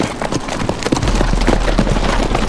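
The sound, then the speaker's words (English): Horses set off under saddled riders in a posse, their hooves clip-clopping in a dense, rapid, irregular clatter over a continuous low rumble. “They swung up into their saddles and set off after the devils.”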